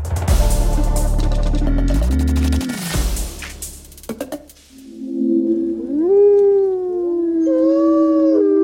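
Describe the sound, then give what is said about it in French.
Wolves howl in the wild in France: several long, wavering howls overlap in the second half, gliding up and down in pitch, loud and sustained, following a burst of louder, denser sound at the start. “Et ce sont les loups qui sont de plus en plus nombreux en France, qui sont aujourd'hui à la une de la science.”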